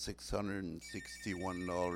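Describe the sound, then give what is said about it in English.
A telephone ringing with thin, steady high-pitched tones, faint beneath continuous talk that dominates throughout. “we are going to play because the phone's ringing”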